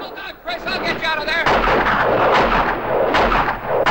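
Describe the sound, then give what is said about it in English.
Heavy gunfire in a western-style town shootout, dense loud cracks and blasts running continuously through the second half after a short stretch of voices at the start. “Calvera makes a dash towards Chris, but is forced to throw himself to the ground when he comes under fire from Chico and O'Reilly.”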